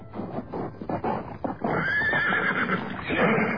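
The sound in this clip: Galloping horse hooves, a quick rhythmic clatter of beats, followed by a horse's neigh with a wavering high pitch that carries toward the end.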